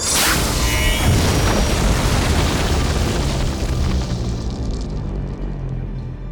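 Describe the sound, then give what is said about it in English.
A loud explosion as a goddess of stone shatters into thousands of pebbles, a broad booming blast that rumbles on and slowly fades over about six seconds. “The blade of energy reflected off the glass and shot back into her sister. The goddess of stone exploded into thousands of pebbles.”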